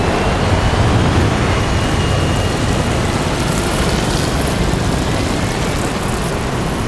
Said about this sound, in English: Three aircraft take off, kicking up black dust.